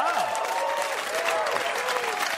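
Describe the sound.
An audience applauds during a show's opening monologue with brisk, dense clapping at a steady level. A brief vocal whoop rises near the start.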